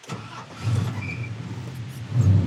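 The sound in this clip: A car engine starts and settles into a low, steady rumble that grows louder near the end, heard alone without talk.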